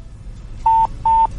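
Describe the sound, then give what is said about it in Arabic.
Two short, steady electronic beeps of a telephone line tone as a phone call drops. The tones are loud and identical in pitch, with a brief gap between them, heard alone over faint low background hum. “افا راح الاتصال احد اتصل عليه ولا هو علق المكالمة”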